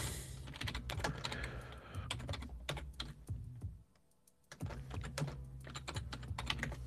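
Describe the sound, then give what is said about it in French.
Rapid typing on a computer keyboard as someone enters a Google search for a cloth, with a dense run of crisp key clicks, a short pause midway, then another steady burst of keystrokes. “je vais taper ça, chiffon.”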